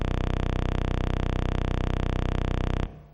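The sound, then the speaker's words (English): A very low 31.25-hertz sawtooth wave from a program looping a 256-byte output, heard as a loud, steady, buzzy drone that holds unchanged for about three seconds and then cuts off abruptly. “we have a sawtooth wave of 31.25 hertz, which is at the lower end of human hearing range, and it sounds like this is 3 seconds of sawtooth wave.”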